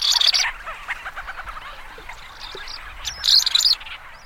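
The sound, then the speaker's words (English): High chirping calls of the ancient murrelet, a plump black and gray seabird of the North Pacific, come in a few sharp bursts at the start and again near the end over a steady background hiss. “there's one bird, as far as we know, only one, that migrates east to west and back across the North Pacific. It's the ancient murrelet.”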